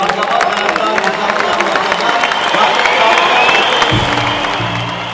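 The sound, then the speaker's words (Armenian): Loud, dense applause fills a hall as a politician approaches the podium. Many hands clap in a steady wash that swells slightly toward the middle and holds to the end. “Հետո արդեն ամբյոն մոտեցավ Գագիկ Ծառուկյանն ու դալիճը պայթեց ծափերից։”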